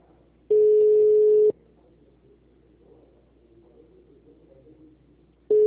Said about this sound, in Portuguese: yo estoy ligando por teléfono y nadie me atiende.